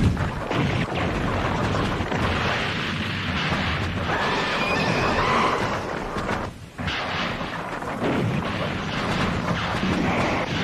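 Guns firing in a sustained barrage, a dense, loud, continuous roar of blasts with almost no gaps, dipping only briefly before resuming.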